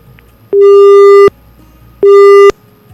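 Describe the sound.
A telephone busy signal sounds on a failed call: two loud, steady beeps of one fixed pitch, the first longer than the second, separated by a short silence.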